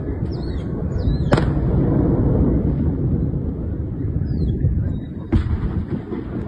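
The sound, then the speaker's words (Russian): Explosions go off outside. Two sharp, loud blasts stand out over a constant low rumbling roar, and faint high whistling tones drift in between. “Серьезно взрывает.”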